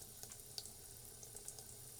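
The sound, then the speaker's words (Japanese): Hot water runs from a bathroom sink tap set to a shower-like spray. A faint, steady hiss of spraying water continues throughout, broken by a few small splashy ticks. “そういえば洗面所でお湯出すことってあんまないな。あ、ここひねったらシャワーみたいになるのか。”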